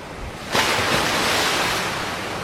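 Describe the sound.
Sea waves wash against the shore. A surge of surf rises sharply about halfway into the first second, then continues as a loud, sustained, hissing wash that slowly eases.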